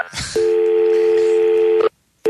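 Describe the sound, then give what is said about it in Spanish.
Telephone tone as a long-distance number with its area code is dialed: one loud, steady, pure tone held for about a second and a half, then brief silence and the start of another tone. “Está marcando, es que también el código de área.”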